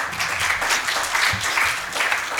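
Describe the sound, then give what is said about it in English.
An audience applauds during a political discussion about government spending on advertising. The clapping is dense, steady and continuous through the whole stretch. “if you're applauding government spending on advertising, that's welcome.”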